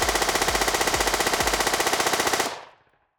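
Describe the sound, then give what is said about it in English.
Rapid automatic gunfire from a gun fired repeatedly: one sustained, evenly pulsed burst of loud shots that cuts off abruptly and leaves a brief fading tail. “As the smoke from your barrel slowly dissipates and the shrapnel of the bullets raining down on this strange”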